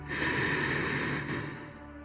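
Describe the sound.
A deep, audible inhalation is drawn in during an energizing breathing exercise paired with arching and rounding the back. A breathy hiss holds steady for over a second, then tapers off softly, with no talking.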